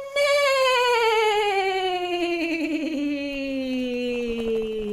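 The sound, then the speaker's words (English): A voice imitates a horse's whinny during a children's sing-along song, holding one long, sustained tone that slides steadily downward in pitch, with a quavering wobble partway through. “Can you make a horse sound with me?”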